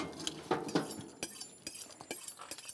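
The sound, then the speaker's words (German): Faint clinks and light knocks of a plate being moved in a kitchen while meat is trimmed of fat, several soft dish contacts scattered across a few quiet seconds. “Genau, ich bewege mal den Teller.”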